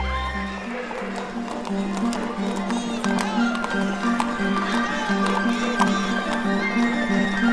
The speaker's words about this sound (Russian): Смотрите, он садится на лошадь и уезжает куда-то.